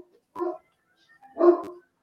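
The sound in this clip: A dog barks twice in short, separate bursts, with silence between them. The second bark is louder and slightly longer than the first.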